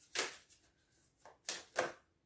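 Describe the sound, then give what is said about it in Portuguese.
Tarot cards are shuffled and dealt out in a few soft, papery swipes and flicks, faint and irregular, with no voices. “Vou lançar aqui uma data de cartas entre vocês e a pessoa que vocês estão a pensar.”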